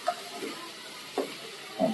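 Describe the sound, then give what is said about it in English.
Scallops cooking in a pan: a soft, steady sizzle broken by three brief scraping stirs, fairly faint, with no talk. “I'm going to take the scallops that go into here. I want to get them in here for a minute. Okay. Continue to cook still. We're not done with them yet.”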